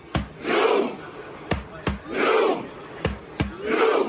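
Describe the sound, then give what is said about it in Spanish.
A crowd dressed in red performs a Viking war cry chant in Times Square. Sharp booming beats, paired close together, each lead into a loud collective shout, giving three shouts in a slow, steady rhythm. “El U quiere decir el remo, el grito vikingo.”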